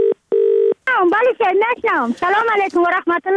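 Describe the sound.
Telephone tones as a call is dialed: two steady electronic beeps separated by a short gap, followed at once by a voice speaking over the line.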